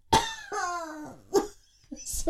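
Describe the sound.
Coughing from a dry throat: a few short, rough bursts mixed with voiced throat sounds, with uneven loudness and no clear rhythm.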